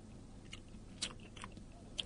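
Faint chewing of food by someone eating, soft mouth sounds with a few small crunchy clicks over a quiet, steady background and no talk.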